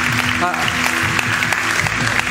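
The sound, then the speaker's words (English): An audience applauding at a church service, a dense, steady wash of clapping that holds at an even level, with a voice briefly rising over it. “Come on, one more time. Give them a great hand.”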